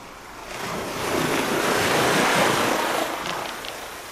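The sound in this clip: Crashing ocean waves of a tsunami form a continuous broad roar with a windy hiss. The sound swells to a peak and then eases slightly, without voices.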